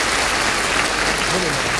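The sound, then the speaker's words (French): Audience clapping for a songwriter on a French TV show: a continuous, full burst of applause at an even loudness throughout, with a voice faintly rising through the crowd noise near the end. “On applaudit pour les succès qu'il vous a écrits.”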